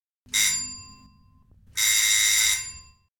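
A doorbell rings twice at a front door in cold weather, each ring a bright metallic tone with shimmering high overtones that holds for about a second and then fades, with a quiet pause between the two rings.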